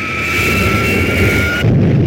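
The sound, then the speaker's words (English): Flying saucer blast-off sound effect: a steady roaring rush with a sustained high whine that cuts out near the end, giving way to a rougher, lower roar for the last moments of the roughly two-second effect. “The defeated spacemen are preparing to blast off.”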